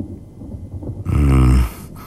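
Thunder from an approaching thunderstorm breaks out as one short, loud, deep rumbling burst of about half a second that swells abruptly and then cuts off.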